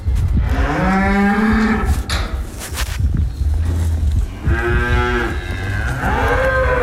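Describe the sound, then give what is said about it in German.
Cows moo in a farm barn as they come in from pasture, giving a few long, loud, drawn-out lows over a steady low rumble. “Mitten im Stall innen. Das heisst, die Aufnahme war eigentlich, ich bin gerade Kühe von der Weide reinholen.”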